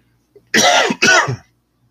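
A person clears their throat twice in quick succession, two loud, harsh rasping bursts of nearly equal length, preceded by a faint small click and then followed by quiet.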